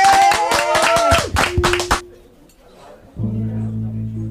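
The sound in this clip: Applause of clapping hands, brisk and fast for about two seconds over sustained tonal sounds, then dying away into quieter low, steady tones.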